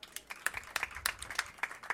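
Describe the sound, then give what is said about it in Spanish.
Audience applause at a music festival: quiet, sparse hand claps in an uneven patter, with individual claps standing out clearly against a soft background. “Así que también muchísimas gracias a Estrella de Levante y también pido un aplauso.”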